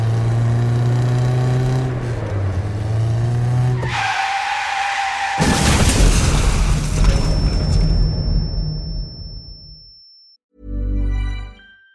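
A car taking a curve at high speed loses control and crashes. An engine roar gives way to a squealing tyre skid, then a loud crunching impact that rumbles and fades, and a separate final thud.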